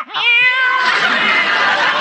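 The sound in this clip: A human voice imitates a cat's meow with one loud, drawn-out cry lasting about two seconds. The pitch rises briefly at the start, then the cry holds steady and sounds alone.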